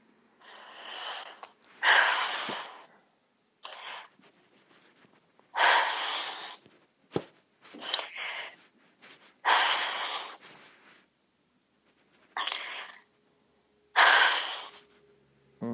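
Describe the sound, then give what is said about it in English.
Slow, deliberate breathing in and out, each breath a soft rushing burst of air separated by silence, repeated for several cycles at an unhurried, fairly even pace. “Breathe in and out 5 times every day.”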